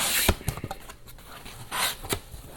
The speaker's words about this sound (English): I'm still in the process of getting into this box. I think there's some other tape. There we go.